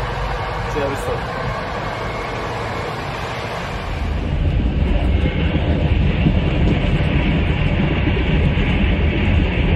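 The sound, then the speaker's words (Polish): Train noise at the railway station in Lublin: a dense, steady rumbling hum that grows louder partway through and carries on evenly to the end. “Siedliśmy właśnie na dworcu w Lublinie.”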